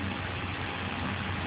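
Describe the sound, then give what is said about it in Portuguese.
Car engine running while someone drives, a steady, unbroken low hum and rumble that holds an even level throughout with no voices. “Olha só, peraí, eu tô aqui dirigindo.”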